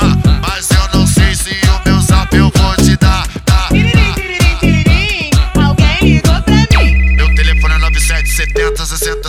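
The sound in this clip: A synthetic electronic telephone ringtone plays in a high, repeating pattern of beeps over a loud, punchy music beat, which takes over in the final seconds.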